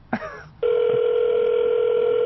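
A telephone tone sounds as a call rings through to voicemail. After a brief short sound at the start, it becomes a steady, continuous, fairly loud electronic tone that holds unchanged to the end.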